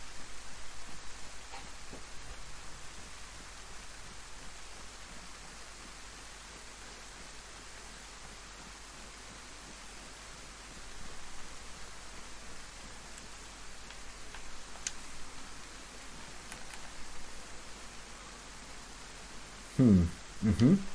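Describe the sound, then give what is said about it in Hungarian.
Heavy rain falls as a faint, steady wash of hiss that continues unbroken from start to finish. “Hogy eshet ennyi eső?”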